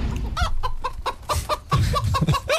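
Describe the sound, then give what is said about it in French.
A hen clucks over and over in quick, uneven bursts, loud and alone, with no voices. “qu'est-ce que vous faites avec cette poule? Je vérifie.”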